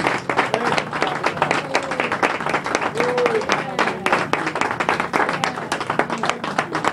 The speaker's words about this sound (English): Let's give one more hand clap.